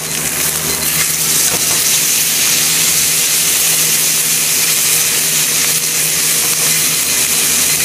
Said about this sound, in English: Fire's good, it's cooking. My fan is working.